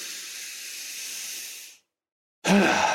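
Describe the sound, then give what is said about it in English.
A slow, deep breathing exercise: a long, steady, hissing exhale that fades out, a short silence, then a sudden, louder breathy inhale. “I'm going to do it just because I just talked about it. So I'm going to do it real quick. Exhale, inhale.”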